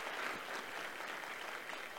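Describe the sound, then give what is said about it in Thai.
Soft, continuous clapping from a room of people applauding to congratulate three new star masters at a business event, even and unbroken from start to finish. “ตบมือแล้วก็ขอแสดงความยินดีกับนิวสตาร์มาสเตอร์ทั้ง3ท่านด้วยค่ะขอตบมือให้กับทั้ง3ท่านด้วยค่ะ”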